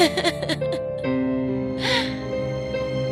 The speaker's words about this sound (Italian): Le sorellastre e la matrigna uscirono per recarsi al gran ballo. Cenerentola rimase a casa da sola a piangere.